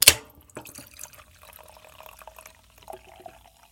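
A can of pineapple grapefruit soda cracks open with one sharp snap, then fizzing and liquid pouring and trickling follow for a few seconds, softer and uneven.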